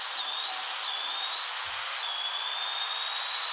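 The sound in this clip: A car engine in a racing video game cruising at 210 km/h makes a steady, high, whining drone that stays constant throughout, stepping slightly down in pitch once midway.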